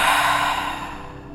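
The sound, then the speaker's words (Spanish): One deep exhale through the mouth during a relaxation breathing exercise: a long, airy breath that starts fairly strong and gradually fades out over about a second, with no talking. “Inhalo. Exhalo.”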